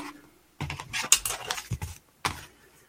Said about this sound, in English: Right, let's color in the old man in black.